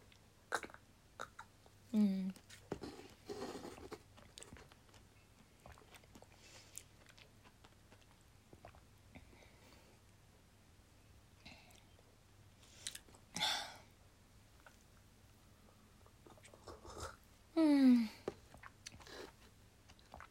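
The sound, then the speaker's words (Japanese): Someone eats yogurt, making quiet mouth sounds: soft smacking and scattered small clicks spread across about twenty seconds, with a couple of short vocal squeaks. “ヨーグルトをね食べてる。”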